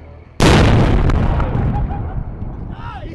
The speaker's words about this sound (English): The American soldiers say three roadside bombs have been destroyed in this blast.